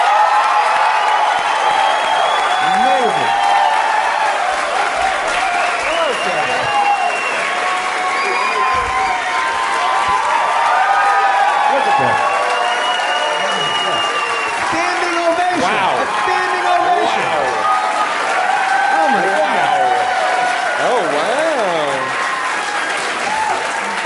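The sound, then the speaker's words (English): Audience applause and scattered cheers greet comedian and musician Al Yankovic as he is welcomed on as a guest. A dense, steady wash of clapping continues throughout, with voices audible through it. “Furious that I did not get a standing ovation.”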